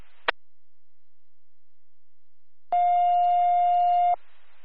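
EMS dispatch alert tone over a radio: a sharp click, a pause, then a single loud, steady, harmonic-rich tone lasting about a second and a half, over faint static.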